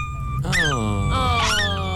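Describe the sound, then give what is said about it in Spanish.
A person vocally imitates a hurt dog whimpering. The loud, high, wavering whines come as two drawn-out yelping cries, each sliding in pitch, the second rising higher before dropping away. “imito a un perro cuando lo lastiman”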